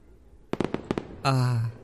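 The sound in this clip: Fireworks set off outdoors on a hot night burst in a rapid cluster of sharp, loud pops and crackles, each fading quickly.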